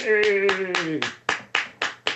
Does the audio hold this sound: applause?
yes